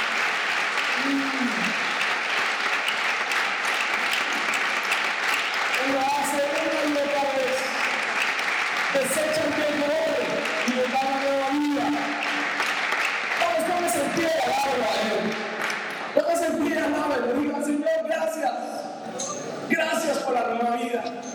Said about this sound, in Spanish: Aplausos a los jóvenes, la sangre de Cristo tiene poder.